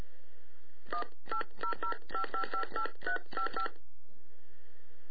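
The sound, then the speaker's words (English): Telephone keypad dialing tones entered on a long-distance calling line: a rapid series of many short, bright two-tone beeps in an uneven rhythm, with brief gaps, clear and alone without talk. “Please enter the long distance number you wish to call.”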